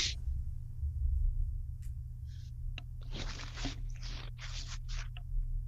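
Handwriting on paper, heard as a few dry, scratchy pen strokes in quick bursts over a steady low hum.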